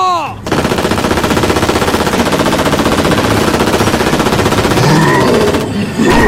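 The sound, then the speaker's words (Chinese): Machine-gun fire rattles out in one loud, sustained burst of rapid shots lasting about five seconds, keeping a fast, even rhythm throughout. “看来有必要给你点厉害尝尝了， 开火！”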